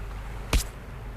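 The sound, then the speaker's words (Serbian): A single sharp slap in the face, one quick smacking hit against a faint, steady background. “Lupila mi je šamar. Mora biti da mi je lupila šamar. Lupila mi je.”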